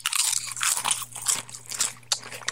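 Crunching of Jack cheese and black pepper tortilla chips as someone bites and chews, with many crisp, bright bursts in an uneven rhythm and no talking.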